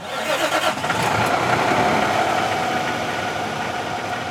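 A bus engine starts and the bus pulls away, giving a dense, continuous mechanical rumble and roar that holds at a steady level throughout, with no voices.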